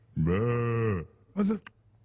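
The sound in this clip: A lamb bleats twice, first a long, wavering nasal bleat, then after a short pause a brief second one, clear against a quiet background.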